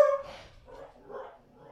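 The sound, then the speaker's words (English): A little dog barks: one sharp, loud bark at the start, then a few softer, higher yips and whimpering calls that follow unevenly. “oh, Kaido is barking at something. Kaido's barking. And they're like, oh my god, shut up, little dog.”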